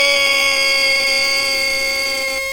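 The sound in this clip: A loud, steady electronic beep tone held without a break for the whole stretch, bright with several ringing harmonics, dipping slightly in level at the very end.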